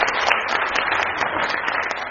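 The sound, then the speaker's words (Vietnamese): Audience applause at a class or talk after a lesson on teamwork, a short burst of dense, even clapping with no single claps standing out. “Một tràng pháo tay cho chúng ta bài học về đồng kết.”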